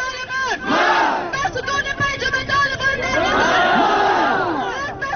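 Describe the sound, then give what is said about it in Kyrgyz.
Protesters at a demonstration in Kabul shout 'death to the Taliban' together: loud, overlapping crowd voices in rough chanting waves that swell and dip, with dense babble and raised cries throughout. “бүгүн борбор кабулда жүздөгөн адам демонстрацияга чыгып талибанга өлүм деп кыйкырып жатышты.”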